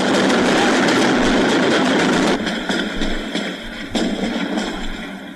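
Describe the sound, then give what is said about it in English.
Heavy 50-caliber gunfire during street fighting in wartime Detroit, on 12th Street where tanks have moved in. A dense, loud roar of rapid reports runs for about two seconds, then eases, with another sharp burst around the fourth second. “Those shots are being fired on 12th Street. Two tanks have just moved into that area. Those first shots you heard were 50 caliber.”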